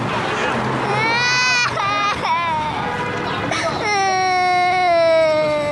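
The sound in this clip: A young child cries and whimpers in rising, wavering wails, loud and sustained, during a police scene with adults speaking around it.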